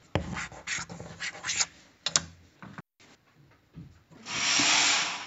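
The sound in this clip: A teacher writes on a classroom whiteboard, making scratchy, squeaky marker strokes in short irregular bursts with brief pauses, then a longer sustained hissing stroke at the end.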